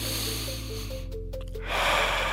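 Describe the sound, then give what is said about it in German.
A deep inhale during a calming breathing exercise: a soft rushing breath that swells near the end over steady, quiet background music. “Tief einatmen.”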